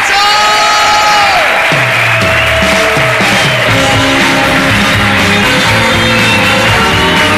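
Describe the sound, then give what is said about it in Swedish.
Warm applause and cheering from a crowd welcoming a performer: dense, steady clapping with whoops, loud throughout and layered over sustained musical tones. “Fan vad härligt, då tycker jag att vi ger en varm applåd för Simon Chippe”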